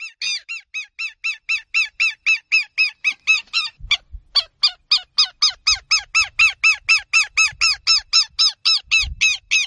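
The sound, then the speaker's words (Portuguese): Southern lapwing (quero-quero) calls: a long run of loud, harsh, nasal notes repeated in a steady quick rhythm, with one brief break partway through before the series resumes. “quem também gosta de expulsar intrusos do seu território são os quero-queros. Ainda mais se eles estiverem com filhotes.”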